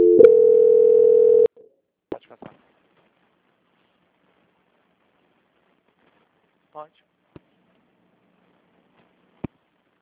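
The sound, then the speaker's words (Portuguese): Telephone call-transfer tone: one loud, steady, unbroken tone lasting about a second and a half, followed by a few faint, brief clicks scattered through otherwise near silence. “A sua ligação estará muda, porém eu já vou transferir a ligação.”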